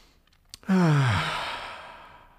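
A deep, slow breath: a brief, faint intake, then a single voiced sighing exhale that starts loud, slides down in pitch and trails off into a long breathy fade.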